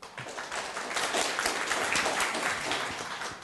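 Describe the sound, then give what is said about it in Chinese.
An audience at an academic conference applauds, a dense, even patter of many hands clapping that stays fairly faint and steady throughout, with no voices over it. “那我想借用各位的掌声”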